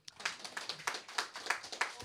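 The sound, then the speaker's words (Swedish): Warm applause from a few hands clapping in a quick, fairly steady rhythm, faint and brief. “och så får vi ha en varm applåd för oss.”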